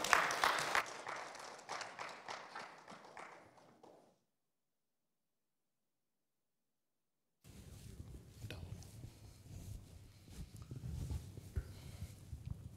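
A church audience applauds to welcome a preacher with faint clapping that fades out into a few seconds of silence before further clapping and noise return.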